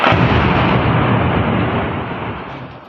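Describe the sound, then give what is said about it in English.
Bombs explode near the Pakistani-administered city of Muzaffarabad, a loud, deep blast whose heavy rumble rolls on and slowly fades. “A video shared by Reuters appeared to capture the moment bombs descended near the Pakistani-administered city of Muzaffarabad.”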